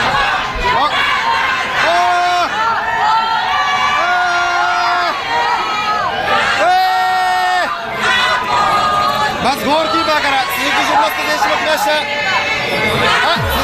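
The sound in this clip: Crowd in Monterrey cheering and shouting to welcome Japan's team, a loud continuous hubbub of voices with drawn-out shouts rising above the din.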